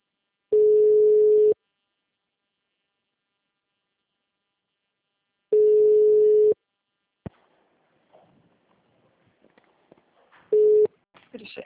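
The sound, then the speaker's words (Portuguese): Telephone ringing tone as a call connects: two long, steady mid-pitched tones about five seconds apart, then a click, faint voices and a brief, cut-short third tone with someone speaking at the end. “Agora tá tocando, tá tocando.”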